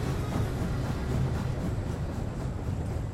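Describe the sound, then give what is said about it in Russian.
Steam locomotive slowly hauling railway cars over a temporary single-track bridge, a steady low rumble with a constant rolling roar throughout and no voices. “Паровоз не спеша тащит вагоны по одноколейке временного моста.”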